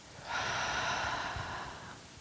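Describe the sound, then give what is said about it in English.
A single deep breath taken during a guided breathing exercise, meant to be drawn in through the nose and pushed out through the mouth. It comes as a soft, steady, airy rush lasting over a second, faint and alone with no talk. “breathe in through your nose, breathe in as deeply as you can, and then breathe out forcefully”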